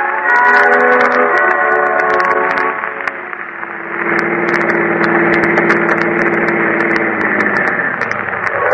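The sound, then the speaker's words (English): A car engine hums as a motorist pulls into a filling station in San Francisco. The drone dips briefly, then settles into a steady idle. “A motorist drives into a filling station.”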